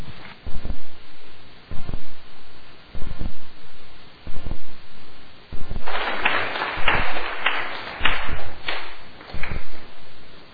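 Audience applause welcoming a lecturer, starting as a few scattered sharp claps and swelling after about six seconds into denser, louder clapping.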